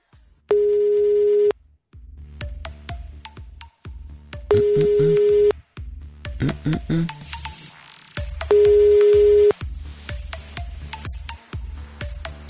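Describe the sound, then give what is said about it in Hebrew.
Ringback tones of a telephone call waiting to be answered: three loud, steady, even-pitched buzzing bursts, each about a second long, spaced roughly four seconds apart. Quieter, busier sound fills the gaps between the rings. “בינתיים עד שהוא עונה את הטלפון”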